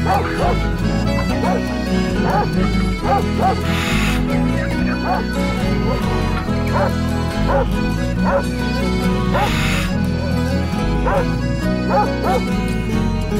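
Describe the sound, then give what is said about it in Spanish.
Two big dogs barking over loud, continuous music: short, repeated barks in a steady rhythm blended into the song. “Pues vio que con cara de pocos amigos, dos perros grandotes ladraban.”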